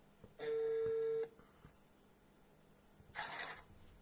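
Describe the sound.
A telephone call is being dialed: one steady electronic tone lasts under a second, then after a quiet pause a second brief burst of beeps follows, all faint.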